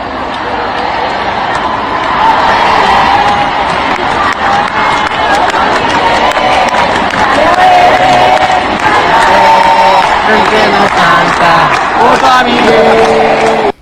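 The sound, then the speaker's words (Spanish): A large crowd chants and cheers at a pop concert in River's stadium in Argentina: a loud, sustained roar of many voices with sung tones rising above it, ending abruptly. “El que no salta votó a Milei, cantaba la multitud esta noche en el estadio de River, en el concierto de una ídola de la música pop en la Argentina.”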